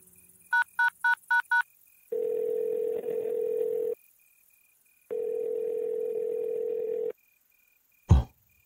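Touch-tone dialing on an apartment landline: five quick keypad beeps, then two long steady tones of about two seconds each with a pause between, ending in a sharp click.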